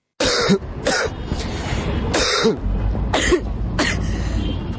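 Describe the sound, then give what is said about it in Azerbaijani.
People coughing as a street protest for a tuberculosis-free future. Many harsh coughs and throat clearings from several people repeat in an uneven rhythm, loud and continuous, with no clear speech. “Bu öskürənlər isə vərəmlilər deyil, vərəmsiz gələcək uğrunda aksiya keçirən Dalğa Gənclər Hərəkatının üzvləridir.”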